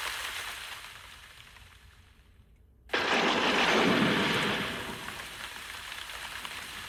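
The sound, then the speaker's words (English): Thunderstorm sound effect: a steady hiss of rain is broken by a sudden loud thunderclap that rumbles low and gives way to heavier, louder rain that continues to the end, with no talk. “it'll pass. These storms never last more than an hour.”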